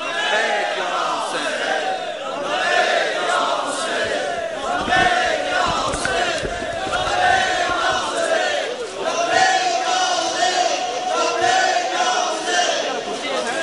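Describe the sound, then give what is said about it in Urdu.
A large crowd chants the religious slogan "Labbaik ya Hussain" in unison, loud massed voices rising and falling in steady, rhythmic swells that carry on without a break. “میں تمام دوستوں سے appeal کرتا ہوں کہ جو اس طرح سے آپ لوگ لبیک یا حسین کا نعرہ لگا رہے ہیں، یہ حسین کی عظمت کے مطابق نہیں ہے.”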